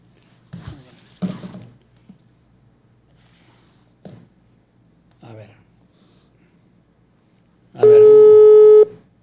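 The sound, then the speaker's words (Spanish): A telephone busy tone sounds while a call is being dialed: one loud, steady, buzzy tone lasting about a second near the end, after a few quieter scattered sounds. “Ahí le estoy marcando a mi Capi Ramón Valverde, denme un segundo, a ver si no está ocupado. Bueno, voy a volverle a marcar al Capi.”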